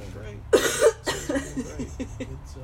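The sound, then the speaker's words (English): A person gives a few short, dry psychogenic coughs. Two sharp, loud bursts come close together, followed by fainter, broken ones. “I'll have to edit out my psychogenic cough moments.”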